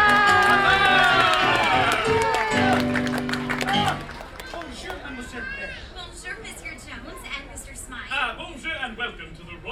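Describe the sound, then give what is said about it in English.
Crowd noise and cheering with scattered chatter and children's voices greet a royal guest at a princess meet-and-greet fair, following a bright musical flourish. The music fades after a few seconds, leaving a steady, busy crowd. “And now, please help us give a warm welcome to our royal guest”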